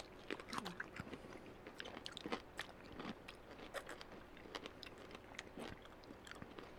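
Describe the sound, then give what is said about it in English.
Someone bites into and chews a pickle soaked in moonshine. The crisp crunches and wet crackles come in quick, irregular succession and stay faint throughout. “do you want to start with eating the pickle first? Let's start with the pickle. Let's start with the pickle here. Okay. So here we go. Let's savor it.”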